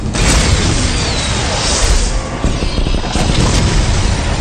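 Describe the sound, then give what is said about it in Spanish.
Infrared missiles firing and exploding: a continuous loud, dense roar with a heavy booming low end that fills the whole stretch, with no clear separate blasts and no voices. “Misiles infrarrojos armados. Se está activando. ¡Fuego! ¡Fuego! ¡Fuego!”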